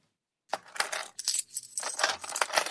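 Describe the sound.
Coins dropping and clinking during a cash payment, a loose run of bright metallic chinks and jangling rattles in several clustered bursts, moderately loud and heard alone.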